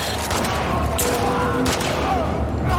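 Gunfire in the shooting video game The Last of Us Part II: a few sharp, loud shots cut through dense, continuous game noise.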